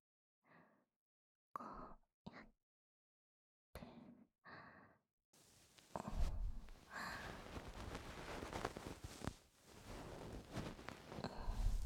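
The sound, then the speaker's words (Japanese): Gentle cleaning with a light, tickling touch: a few soft, breathy puffs, then a dense, continuous scratchy rustle that fills the second half, quiet overall. “軽くくすぐるくらいの力で、お掃除していきます。”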